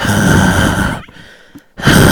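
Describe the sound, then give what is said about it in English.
A person imitates the heavy breathing of a caller on the phone, with two long, loud, rasping breaths separated by a short pause. “hello, who's there? I can hear you breathing.”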